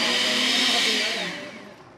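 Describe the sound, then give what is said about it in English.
A blender whirs loudly, blending peeled papaya fruit for a picante sauce at a cooking workshop in a privately owned Cuban restaurant. The motor holds a steady, bright roar for about a second, then winds down and fades. “He peels the fruit and pops it into a blender in order to make a picante sauce.”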